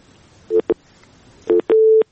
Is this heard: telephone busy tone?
yes